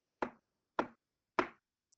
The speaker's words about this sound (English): 2 minutes later we got knocking on the window. I mean, it was like this.